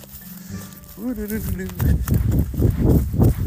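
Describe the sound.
Footsteps run along a muddy path after rain, a quick, regular thudding of many steps, preceded by a short vocal tone.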